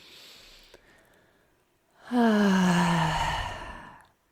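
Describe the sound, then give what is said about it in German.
A deep breath taken during a guided breathing exercise: a faint, airy inhale, then a loud, drawn-out voiced sigh of an exhale that slowly fades over about two seconds, with no talking. “Ein richtiges Einatmen. Dann machst du das nochmal. Komm, wir machen zusammen.”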